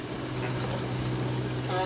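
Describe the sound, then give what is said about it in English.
Boat motor droning as firefighters navigate flooded city streets in Cedar Rapids after a river crest. The engine makes a steady, unbroken rumbling hum, with a voice talking over it. “For Captain Craig Dirks and firefighter Jason Andrews, it's an odd, eerie feeling navigating these streets in Cedar Rapids by boat instead of in a fire engine.”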